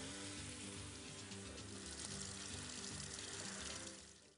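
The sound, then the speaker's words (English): Tap water runs steadily as hands are rinsed after handling raw meat, a constant broad splashing hiss with a faint low hum beneath, fading at the very end. “Now you're going to wash your hands, of course. After we handle raw meat, we always want to wash our hands. I'm going to set this aside and let me just rinse off real quick.”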